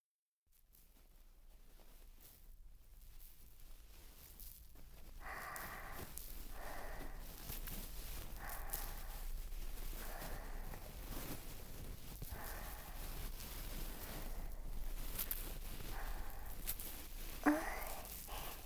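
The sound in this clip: Ear-cleaning sounds inside the ear in an ASMR session: soft, repeated scratching and rubbing strokes that come in short bursts, faint over a low, steady background hum.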